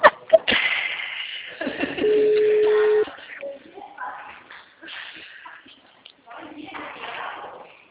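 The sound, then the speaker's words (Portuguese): A telephone call being dialed to a client: handling and shuffling noises, then a single steady ringing tone about a second long, followed by quieter rustling. “Eu ligando pro meu cliente.”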